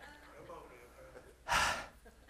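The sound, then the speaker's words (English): A preacher catches his breath: a single sharp, loud gasping inhale bursts out after a quieter stretch of faint, speech-like murmuring. “While I try to catch my breath, I have to run around like Brother Osteen.”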